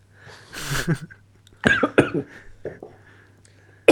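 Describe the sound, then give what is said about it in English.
Coughing from someone who choked on beer: a few harsh, breathy coughs in separate bursts, fairly loud and heard alone without talk. “Excuse me. Choked on my beer on that one.”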